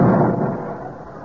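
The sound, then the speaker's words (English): A rocket launching into orbit gives a deep, loud roaring burst that fades steadily over about a second, with no voices. “Oh, you are clumsy, Richard. You shot Daddy in space. Oh, dear. I always seem to be doing the wrong thing. Do you think it'd be very cool? Well, I really don't know. Well, the rocket's gone into orbit.”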